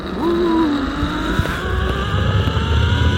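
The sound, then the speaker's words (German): Whirring of a zipline trolley racing along a cable high over the Pöhl reservoir, a continuous loud whine with shifting pitch and a rumbling undertone lasting the whole stretch. “So klingt es, wenn man in luftiger Höhe an einem Seil über die Talsperre Pöhl flitzt. Die über 200 Meter lange Fahrt ist eines der Highlights des Kletterparks an der Pöhl.”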